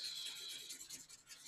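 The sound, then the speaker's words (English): Faint rubbing of an eraser across a small board, a soft raspy scrub made of quick back-and-forth strokes. “erase my little board here to make sure this is actually usable. One second here. Erase it.”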